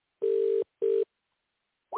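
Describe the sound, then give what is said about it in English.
Two steady, mid-pitched telephone line tones on an international call to the United Kingdom, a longer beep and then a shorter one, followed by silence and a brief onset of another sound at the end. “All right, we're calling United Kingdom.”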